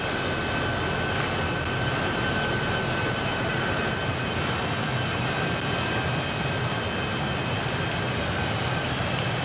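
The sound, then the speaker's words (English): Steady engine rumble of royal motorcade vehicles moving out of a tunnel under a building during a royal funeral procession, a continuous, even roar with no distinct events and no voices. “The Royal Motorcade of Their Majesties the King and Queen has now moved from the tunnel under the building.”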